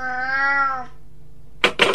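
A cat meowing: a single drawn-out, clear meow that holds its pitch before dropping at the end, followed by a few short, noisy bursts.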